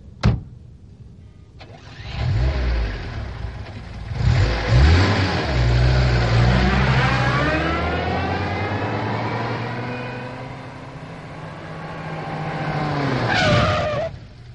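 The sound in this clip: A car engine starts up at night and the car drives off. The engine rises to a strong, steady roar that swells and falls away, with a brief higher whine near the end.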